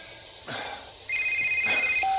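A telephone rings as a mother calls her son: a fairly faint electronic ring of steady high tones comes in partway through and grows louder, holding for about a second.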